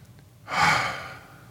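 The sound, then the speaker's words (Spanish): A slow breath drawn in during a guided breathing exercise: one soft, airy hiss that swells, peaks and then fades, with no talking. “Espera un momento, inhala otra vez.”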